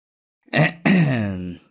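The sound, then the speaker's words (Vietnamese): A man clears his throat, a short rough burst followed by a longer, voiced, gravelly rumble that trails off. The sound is alone, with no talk. “Ông làm bộ nghiêm trang chỉnh lại cái khăn xếp trên đầu cho ngay ngắn rồi đằng hắng.”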